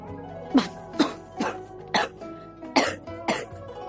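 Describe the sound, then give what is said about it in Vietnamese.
Coughing from afar, a warning cough in the distance: six short, harsh bursts at fairly even intervals, each a rough throaty hack, with no talk around them. “Lại có tiếng ho nhắc nhở phía xa, Diễm Tuyết Cơ”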